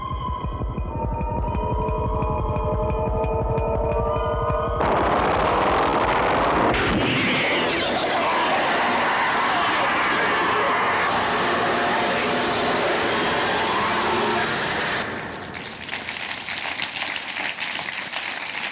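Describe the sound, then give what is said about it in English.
Trailer soundtrack for the 1979 film Alien: a low throbbing hum with sustained eerie tones swells abruptly into a loud, dense roaring wall of noise, which grows fuller, holds steady, then eases slightly near the end; no voices. “But I thought, since Alien is 40 years old, here's the trailer for Alien 40 years old.”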